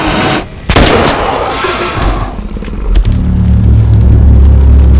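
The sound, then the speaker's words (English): A rifle is fired at a creature on a dark path: one loud, sharp blast, followed by a dense, low rumbling that carries on to the end. “steadies the rifle and fires at the creature.”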